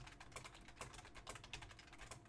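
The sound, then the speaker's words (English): Rapid typing on a computer keyboard while starting a raid during a Saturday morning D&D show: many quick, crisp keystrokes in an uneven, steady run, moderately quiet, with no voices. “I'm going to type it in. Get this thing going.”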